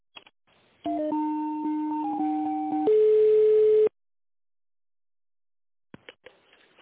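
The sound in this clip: Electronic telephone tones play while a call is transferred to another office department. A short melodic run of steady beeps shifts between pitches and ends in a longer held tone. Silence and faint clicks follow.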